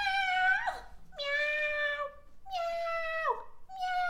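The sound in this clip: A voice imitates a male cat meowing after being shut in a bathroom: four drawn-out, wavering meows at a steady pace, fairly loud and alone, the last one cut off.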